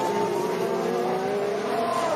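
Formula 1 race cars at the 2016 Australian Grand Prix scream past with a loud, steady, high engine whine whose pitch wavers slightly throughout.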